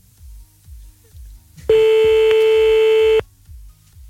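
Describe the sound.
A telephone call is redialled: one steady electronic line tone sounds for about a second and a half over a regular, low pulsing beat that continues before and after it.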